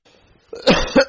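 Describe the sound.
Harsh coughing from a person during a religious question-and-answer session: a few loud, rough bursts in quick succession after a near-silent start.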